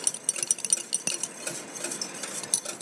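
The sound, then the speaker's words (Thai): A spoon clinks and scrapes against a container while stirring part one of a mixture to dissolve it until clear with no white sediment. Many quick, light, bright taps come in an uneven rhythm, with no voice. “แต่ว่าเราจะต้องละลายส่วนที่1ค่ะให้เป็นเนื้อเดียวกันก่อนนะคะละลายจนเนื้อใสนะคะไม่มีตะกอนสีขาวนะคะ”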